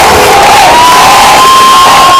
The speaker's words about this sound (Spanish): Melilla ha recibido a los Reyes con aplausos, con cánticos de soy español, no nos moverán o que viva España, pero sobre todo con los gritos de Felipe, Felipe, Leticia, Leticia